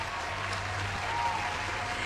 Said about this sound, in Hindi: इस वक्त ना मैं आपके लिए ज़ोरदार तालियां बजाना चाहती हूँ।